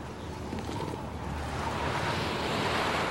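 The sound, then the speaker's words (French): Icy wind blowing in a steady, full roar that swells slightly louder toward the end, with no pause. “Il faut qu'on protège le petit de ce vent glacial.”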